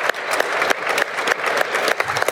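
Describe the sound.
Applause from an audience welcoming a speaker onto the main stage at a manufacturing event: dense, steady clapping that holds at an even level throughout.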